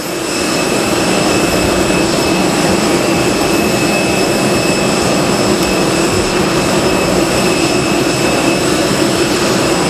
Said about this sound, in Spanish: que recogerá de un momento a otro su escalerilla y comenzará a rodar por esa pista para despegar enseguida, en breve.